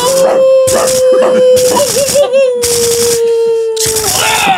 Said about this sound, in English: Shoot those dogs.